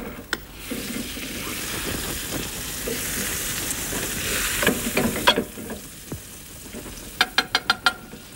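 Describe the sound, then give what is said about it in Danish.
Butter sizzles and browns in a frying pan, giving a steady crackling hiss, with a short run of sharp taps near the end. “Jeg skal lige have det smør på panden først, for så kan vi vist nå at få det til at brune.”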